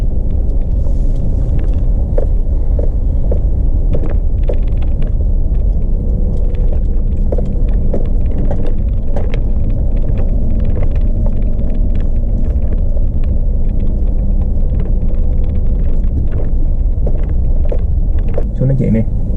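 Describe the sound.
A car rumbles right after running over something: a low, heavy, continuous drone that stays loud and steady for the whole stretch.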